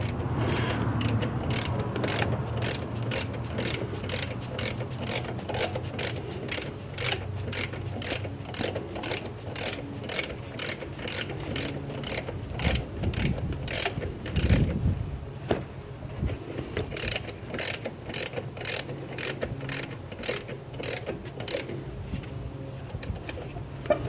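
Ratchet wrench clicking as a fastener near a car's belt tensioner is tightened: many rapid, even ticks in a steady rhythm, with a brief pause partway through before the clicking resumes.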